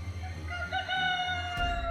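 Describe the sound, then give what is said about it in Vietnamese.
A rooster crows once in the night, a drawn-out, strongly harmonic call that holds its pitch, clear and moderately loud over a low background. “Gà gáy tới lần thứ tư”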